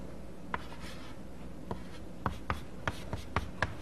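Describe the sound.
A polynomial is written on a board during a lecture, with faint scratchy strokes and several short, sharp taps that grow more frequent toward the end.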